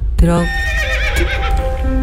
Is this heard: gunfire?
no